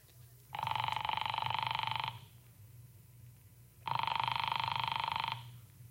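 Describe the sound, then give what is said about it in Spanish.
A telephone rings twice, each a long, steady, bright trill lasting over a second, separated by a pause, with a low hum running underneath. “Solamente siéntese allí mientras hago una llamada telefónica. Operador, por favor, ¿podría conectarme con la Escuela del Estado?”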